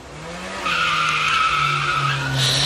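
A speeding car's tyres skid in a sound effect: a low engine tone gives way to a loud, sustained high tyre squeal that runs for about two seconds.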